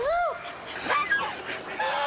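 Geese honking on a small Shunde farm plot that also keeps chickens, ducks and fish: a few nasal, bending honks, faint over a steady background hiss.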